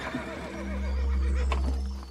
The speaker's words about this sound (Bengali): ঘোড়ার গাড়ির আওয়াজ শুনেই দরজা খুলে দৌড়ে এলো ডেলব্রুক